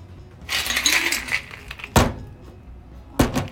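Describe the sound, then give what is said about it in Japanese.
A Sidecar cocktail poured into a cocktail glass gives a steady hiss of liquid for about a second, followed by two sharp, glassy knocks spaced apart, with no talking. “はいカクテルグラスに注いでいきます”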